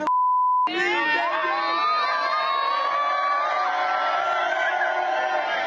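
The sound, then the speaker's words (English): A campus crowd cheers and shouts as a visiting celebrity performer arrives. A short steady beep comes first, then loud, continuous cheering with high whoops and yelling voices that keeps going to the end. “Travis Scott stopped by just as she was making the announcement that she's going pro. Look at that crowd. Whoa, look at that crowd.”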